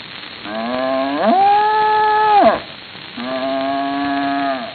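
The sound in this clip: A farm cow mooing twice: the first long, tonal low swoops upward and holds steady before breaking off, then a second, flatter, sustained moo follows after a short gap.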